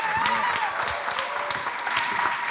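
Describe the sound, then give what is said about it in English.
Audience applause at a church's fifth anniversary service as a guest pastor is welcomed: dense, steady clapping from a crowd with a few voices mixed in, sustained throughout. “So would you put your hands together and welcome our guest, Pastor Jerome Gay.”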